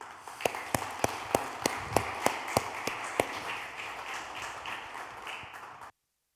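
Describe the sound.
Audience clapping to welcome a speaker, a broad wash of applause with several loud, evenly spaced claps standing out early, fading slightly before stopping abruptly.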